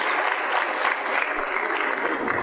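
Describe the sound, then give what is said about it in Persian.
An audience claps on request, producing brisk, continuous applause from many people that stays level and moderately loud for the full couple of seconds. “بخوا برای من دست بزن.”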